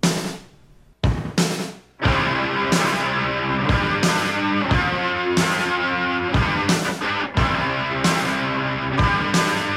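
Rock drums open a song with a few loud, spaced hits before the full band, including distorted electric guitar, crashes in over a steady, driving kick-and-snare beat.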